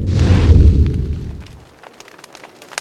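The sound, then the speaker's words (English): A fire catches in the rain as it is lit with a cigarette: a loud, low whooshing roar bursts out, then fades over about a second and a half into faint scattered clicks. “My cigarette will light the fire for us.”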